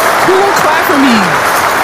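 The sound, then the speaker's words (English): A woman clapping for herself: a steady, fairly loud patter of applause-like claps running through the whole moment, with a few faint tonal sounds drifting over it. “As usual, I've started clapping for myself because if I don't clap for myself,”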